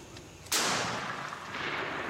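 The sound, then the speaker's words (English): A single sharp gunshot cracks out after a short stretch of faint hiss, then a loud, noisy wash of sound carries on to the end without fading. “shoot again, shoot again”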